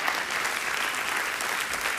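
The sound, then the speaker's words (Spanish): Church audience giving a big round of applause during a sermon, thick continuous clapping that stays loud and even from start to finish. “Damos una ofrenda de palmas bien grande.”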